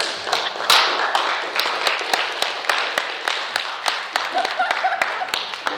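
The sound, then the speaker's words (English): Scattered clapping from a church audience during a sermon: many sharp, uneven claps that rise and thin out, with no steady rhythm, and possible faint voices underneath. “I got more claps than that.”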